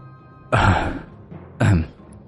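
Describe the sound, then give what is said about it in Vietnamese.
An old man coughs twice, two harsh, rasping bursts about a second apart, each trailing off briefly, with no talk around them. “Lão Sam ho khụ khụ, nuốt nước bọt rồi nói tiếp.”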